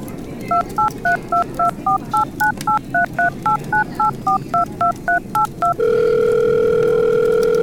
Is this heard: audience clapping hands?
no